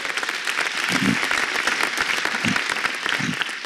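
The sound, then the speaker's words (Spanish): A church audience applauds during a worship service with dense, steady clapping that stays loud throughout, with no pause in the sound. “Ese aplauso tiene que ahora ser mucho más fuerte por la bendición de familia pastoral que nos ha dado Papito Dios.”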